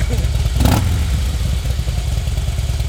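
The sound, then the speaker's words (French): A Harley-Davidson motorcycle engine runs with a steady, loud low-pitched throb that holds through the whole clip, marked by a brief brighter burst near the start. “Vous pouvez faire tourner le moteur puisqu'on est là pour la radio.”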